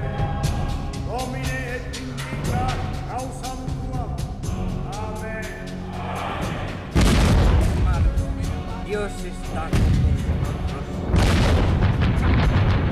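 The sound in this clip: Cannons aboard an armada's warships fire, three heavy, loud booms landing in the latter half, each a sudden deep blast with a rumbling tail.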